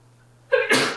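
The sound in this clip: A single human sneeze breaks a near-silence that carries only a faint steady hum. It is a sharp two-part burst, a short voiced intake followed by a louder, noisy expulsion that fades quickly.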